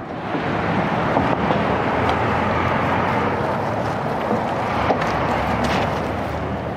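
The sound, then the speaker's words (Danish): Heavy freight traffic rolling along a road below a ramp makes a steady, dense roar with a constant low rumble and no clear breaks or single passing vehicles standing out. No one speaks. “Nu står vi her på den her øh, skrant ved, ved rampen her, og den tunge godstrafik, den kører bare øh, derudad hernede øh, bag os.”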